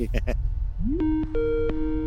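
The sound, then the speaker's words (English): Electronic telephone tones from an outgoing call, after a brief voice at the start: a rising beep, then held steady tones broken by sharp clicks. “Right, it's ringing.”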